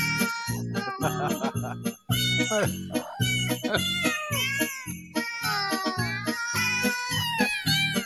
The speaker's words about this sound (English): Now, those are real cats.